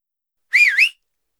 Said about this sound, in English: Can you whistle?